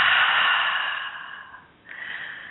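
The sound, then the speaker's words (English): Deep breathing in and out during a breathing exercise, a long airy breath that fades away, then a fresh breath begins after a short pause, alone and close. “Again, deep breath in and out. Again, deep breath in and out.”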